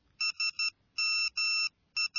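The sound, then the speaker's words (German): A mobile phone text message alert plays bright electronic tones: three short beeps, then two longer sustained tones, then the start of another beep, clear and alone. “Ich bekomme gerade eine SMS auf mein Handy. Jemand hat mir gerade getextet.”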